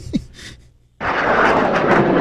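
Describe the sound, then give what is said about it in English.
Rockets launched at Israel being intercepted by Israel's air defense: after a near-silent moment, a sudden loud, broad roaring blast breaks in and holds steady to the end. “Hezbollah continued to launch rockets at Israel Thursday, seen here being intercepted by Israel's air defense”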